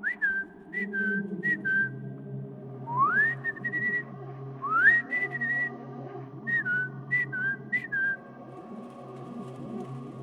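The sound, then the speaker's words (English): A person whistles to imitate birdsong: a series of short high whistled notes and several rising swoops, loud and clear over a low steady hum. “Do they make sounds like this? I ask, then do my best attempt at whistling. I'm not very good at it.”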